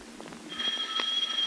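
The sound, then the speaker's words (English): A doorbell rings in a house: a steady, bright electric bell tone begins about a third of the way in and holds to the end, fairly loud and alone over a low background hiss. “And now the afternoon of the next day, the doorbell rings and Penny answers.”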